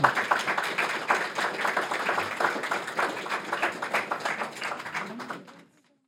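An audience applauds to thank guests after a discussion segment at a live event. The dense, steady clapping tapers off and falls to silence just before the end.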